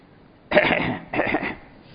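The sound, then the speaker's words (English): A man gives two harsh, throaty coughs in quick succession, each a short loud burst separated by a brief pause. “So when they sat there and opened up their bags, so he started coughing.”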